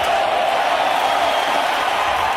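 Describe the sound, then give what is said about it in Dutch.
A tennis crowd cheers on a struggling, tearful Djokovic during a five-set match, an even, sustained roar of many voices that neither builds nor breaks. “Ja, en toen die toptennisser het zichtbaar moeilijk had en vocht tegen de tranen, probeerde het publiek hem erbovenop te juichen.”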